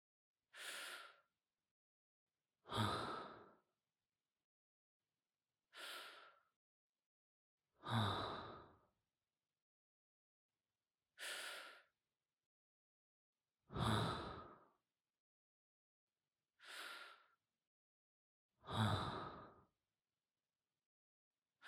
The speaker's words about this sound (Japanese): 深呼吸って体をリラックスさせる効果があるんですよ。そのまま深呼吸を続けましょうか。